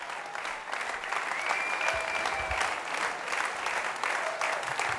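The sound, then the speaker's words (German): Sustained audience applause follows the end of a concert, before an encore. The clapping is dense and continuous at a moderate, even level, with no break and no sign of dying down. “Ja, und Sie hören es im Hintergrund, der Applaus nimmt kein Ende”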